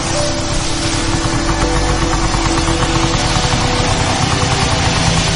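A motorcycle engine idles at a red-light intersection, giving a steady, continuous low rumble with a fine pulsing texture that holds evenly throughout, with no talk.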